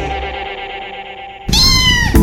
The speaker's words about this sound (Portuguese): As vacinas do seu gatinho estão em dia?